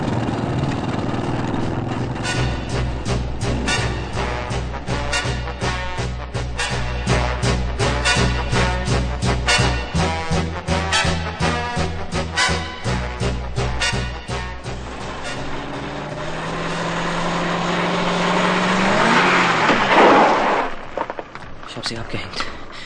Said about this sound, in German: Jetzt rammt er fast den anderen Polizeigleiter. Nein, das war haarscharf. Und das alles wegen eines Halbirren. Halte dich fest! Er fährt wirklich wie ein Rasender. Jetzt biegt er in die Crest Plaza ein.